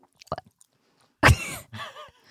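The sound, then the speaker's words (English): Noisy chewing and slurping while eating: a few small, soft mouth clicks, then a louder wet slurp and smacking that tails off. “Oh, I can hear you slobbing on that.”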